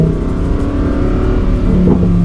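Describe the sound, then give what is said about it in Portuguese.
A Lamborghini's engine roars continuously at high volume as it is driven behind another car, a dense steady growl with no voices. “Eu imagino que o ronco seja mais alto para vocês, porque eu tô com rádio, tenho um capacete de rádio aqui. Eu realmente estou compartilhando com vocês a primeira vez que eu dirijo um Lamborghini.”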